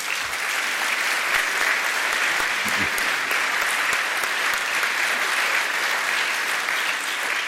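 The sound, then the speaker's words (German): Audience applause after a foreign minister's speech: dense, steady clapping from a large crowd, loud and unbroken for the whole stretch. “nach diesem Beifall wird er sicher auch wiedergewählt als Außenminister von Luxemburg.”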